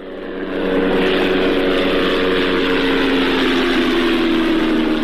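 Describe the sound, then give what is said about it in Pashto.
Steady, droning engine hum of an unmanned aerial drone flying over Ghazni province, Afghanistan. It swells in within the first second, then holds loud and continuous with a buzzing, propeller-like tone and no voices. “دا د هغه بی پیلوټ الوتکې غږ دی چې پر افغانستان د طالبانو له حاکمیت څخه وروسته هم د غزنی ولایت تر څنګ د پکتیا، پکتیکا او ځینو نورو ولایتونو په هوا کې ګرځي.”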